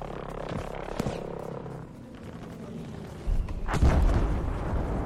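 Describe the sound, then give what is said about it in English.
A bomb explodes in a video game: a deep, rumbling boom swells in the second half and lingers as a heavy low roar over the background. “That sounds like a bomb. That's gonna hit us.”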